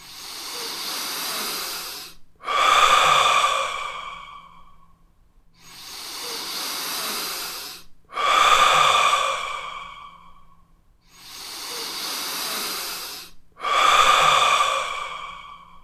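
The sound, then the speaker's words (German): Three slow, deep human breaths during a guided relaxation exercise, each a softer airy inhale followed at once by a louder, hissing exhale that tapers off, in a steady, even rhythm with short pauses between breaths. “Sie können jetzt dreimal tief einatmen”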